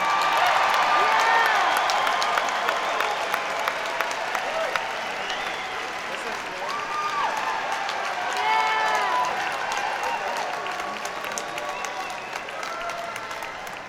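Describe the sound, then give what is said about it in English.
Audience applause with scattered cheers welcoming a performer onstage at the Bridge School benefit concert, a dense, steady roar of many clapping hands that stays loud throughout and eases slightly toward the end. “let's have another big bridge school welcome for Tom York.”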